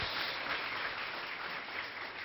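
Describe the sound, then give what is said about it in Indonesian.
Muffled, faint applause for the Buddhist monk Bhante Uttamo Mahathera, an even wash of clapping with no distinct individual claps, steady from start to finish. “Kita boleh tepuk tangan untuk Bante Utamo Mahathera.”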